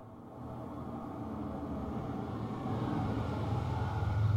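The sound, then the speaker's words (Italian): A 1986 Fiat Uno 45 hp car engine runs with a steady low rumble that gradually swells louder toward the end, with no talk over it. “È proprio il modello che piace a te. Fiat Uno, 45 cavalli dell'86. Oh, modelli così non ne fanno più. Senti che roba.”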